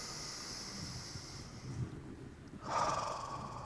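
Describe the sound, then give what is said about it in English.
A church audience takes a deep breath together. Many people's inhales and exhales form a broad, airy rush that swells louder near the end, with no talking. “Everybody take a deep breath right now.”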